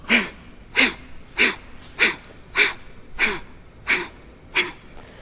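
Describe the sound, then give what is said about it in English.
Eight forceful breaths out in a breathing exercise, each pushing the diaphragm in strongly, following a steady, even rhythm of sharp, breathy bursts with quiet gaps between them. “we're pushing the diaphragm in strongly. The inhale just comes as a reaction.”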